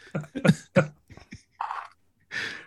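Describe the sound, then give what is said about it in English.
Throat clearing in a few rough, raspy bursts, the final two noisier and more drawn out than the voiced rasps at the start. “clear that throat”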